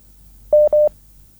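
Two short telephone dialing tones sound in quick succession, each a steady, clean beep of equal pitch and length, fairly loud against an otherwise quiet background with no voices.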